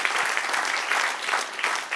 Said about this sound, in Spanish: Denle un aplauso al que es rey.